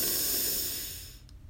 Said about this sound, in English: So let's begin by breathing in